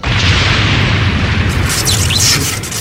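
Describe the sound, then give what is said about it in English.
A loud sci-fi blast effect of photon torpedoes fired from a starship at an enemy ship: a continuous, heavy low rumble with broad hissing noise, and brief high whooshing streaks near the end. “Lock a full spread of photon torpedoes on the Borg ship and fire! Torpedoes away.”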